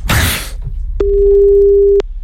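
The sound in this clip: Telephone ringing tone on a call to a neighbour: a brief noisy rustle, then one steady mid-pitched tone lasting about a second, with a click at its start and end.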